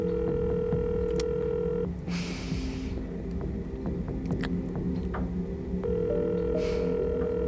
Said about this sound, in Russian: В телефоне раздаются длинные гудки. Гена слушает гудки